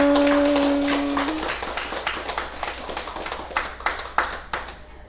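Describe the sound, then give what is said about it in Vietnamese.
Audience applause at a Buddhist dharma talk: a spread of hand clapping that thins out into a few scattered, sharp individual claps toward the end, fairly quiet overall. “cảm ơn đại chúng vỗ tay.”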